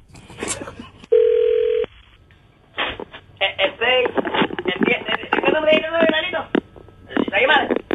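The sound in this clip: A telephone call: one steady mid-pitched tone sounds for under a second, then after a short pause a voice talks over the narrow, thin-sounding phone line.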